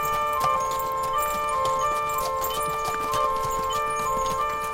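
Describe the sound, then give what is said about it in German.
Hooves clop from a team of horses ploughing a small experimental field with old-fashioned animal muscle power: many irregular, hollow knocks keep up a steady beat for the whole clip, with no talking. “Und etwa einmal im Monat kommt er mit seinen Pferden vorbei, um gegen Lohn ein kleines Versuchsfeld zu beackern. Sein Gespann pflügt und eckt mit tierischer Muskelkraft wie im Mittelalter.”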